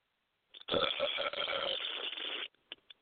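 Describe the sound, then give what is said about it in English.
A long, rough burp from someone who has been drinking Miller High Life beer all night, lasting about two seconds, followed by a couple of short faint sounds. “I have booger-like fucking vomit burps tonight because I've been on the Miller High Life all night.”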